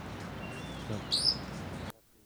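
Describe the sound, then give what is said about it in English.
Wild crossbills calling in flight: a few brief, thin, high chirps stand out faintly over steady background noise before the sound drops away abruptly. “A bunch of wild crossbills flying around the general area. 45 little calls and buzzes.”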